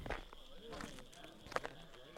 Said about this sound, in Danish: Låser efter mig. Og begynder at gå ned ad vejen.